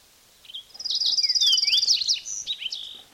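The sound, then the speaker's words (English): A fox sparrow sings a rich, warbling phrase of rapid, high whistled notes and slurred chirps, lasting about two and a half seconds and heard alone. “fox sparrow singing”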